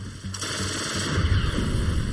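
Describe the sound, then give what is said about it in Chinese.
Machine gun fire from Vickers guns strafing parked aircraft on an airfield. A dense, continuous rattle of rapid shots, fairly loud and unbroken throughout. “在梅塞施米特、斯图卡、荣克和亨克尔的包围下，我们像蛇一样缓缓行进，一路走一路扫射。”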